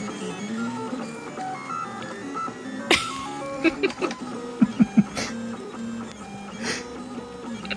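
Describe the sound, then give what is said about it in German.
A printer prints circles, building a round part such as a gear. Its motors give off whining, melodic tones that shift in pitch, and a few sharp clicks land in the middle of the run. “Hört sich sehr interessant an. Der druckt gerade Kreise.”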